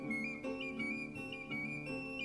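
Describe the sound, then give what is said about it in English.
A whistle plays a short run of sustained, clear notes that change pitch every half second or so, faint overall, with steady tones ringing beneath them. “you play upon your whistle.”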